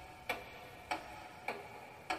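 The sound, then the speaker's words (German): A clock ticks faintly and steadily, with four evenly spaced sharp ticks about 0.6 seconds apart over low background hiss. “Ein Ticken erklingt, wie von einer Uhr. Und tatsächlich, am Himmel schwebt eine Uhr und dort ticken brandneue Sekunden.”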